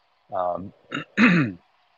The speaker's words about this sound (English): I'm sorry, I keep clearing my throat.